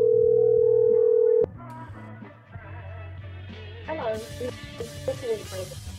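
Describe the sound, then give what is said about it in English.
A phone ringing unanswered during a call: a steady electronic ringing tone holds for about a second and a half, then cuts off abruptly and gives way to voices and other mixed sounds. “Hello. Oh, pick up your phone, lady.”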